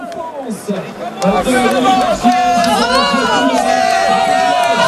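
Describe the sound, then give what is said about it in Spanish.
Spectators at the finish of a cycling race cheer and chatter in a dense, lively hubbub that grows louder partway through, with commentators talking steadily over it. “Se oye más al público que hay abrazándose con sus auxiliares.”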